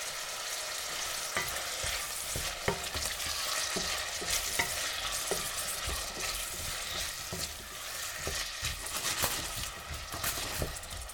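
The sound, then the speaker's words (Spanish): Onion and garlic with a little salt fry in a pan over raised heat, giving a steady sizzle dotted with many sharp crackles and scraping stirring strokes throughout, with no talk. “Echamos la cebolla y el ajo, echamos un poquito de sal que nos ayudará a que se cocine mejor, subimos el fuego con alegría y que empiece el concierto de la cocina.”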